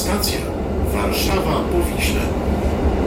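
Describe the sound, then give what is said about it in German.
A train crosses a steel bridge over the Vistula, a steady, dense rumble of wheels and carriage noise that holds at an even loudness throughout, with a voice over it. “an dem anderen Zuggeräusch. Fahren wir über so eine Stahlbrücke an die Weichsel.”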